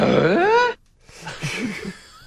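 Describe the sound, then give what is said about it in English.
A person's voice imitates Scooby-Doo's bark-like speech with a loud, tonal howl that bends up and down in pitch, then trails into softer, mumbled vocal sounds. “Now, see, that's Scooby-Doo. We're doing Scooby.”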